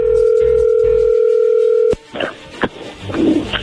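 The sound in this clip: Steady telephone dial tone as a call is placed: a continuous, loud hum lasting about two seconds cuts off with a sharp click. Faint clicks and rustling follow.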